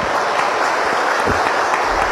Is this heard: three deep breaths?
no